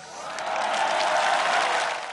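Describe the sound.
An audience cheers and applauds at a celebration of Croatia's historic night, a dense wash of clapping and voices that swells up and then eases off.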